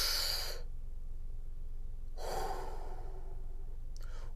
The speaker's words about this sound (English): We're going to breathe in 3 times and we're going to release 3 times, okay? You ready? 1, 2, 3, inhale.